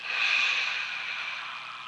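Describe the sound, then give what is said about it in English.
A long, steady breath during a guided breathing exercise, heard as a soft airy hiss that swells slightly and then gently fades, with no talking over it. “Another nice deep breath, and releasing it.”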